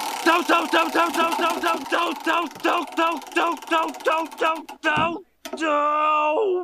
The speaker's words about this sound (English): And to do that, we're going to need that good old-fashioned Wheel of Random. Let's spin it to see what season we're in.